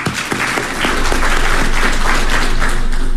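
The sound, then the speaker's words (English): An audience applauds for someone's birthday. Scattered claps swell after a second into dense, steady applause that stays loud until the end. “Y'all give her a hand this morning.”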